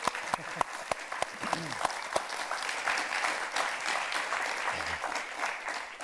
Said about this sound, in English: But before we begin, can we just give her another round of applause?